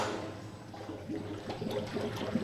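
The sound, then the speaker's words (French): Fresh morning milk being pumped through a hose into a vat on a dairy farm, for making cheese. It sounds like a faint, continuous liquid gurgle and trickle with soft splashes. “je vais mettre mon tuyau dans ma cuve et je vais aller prendre le lait de la traite de ce matin.”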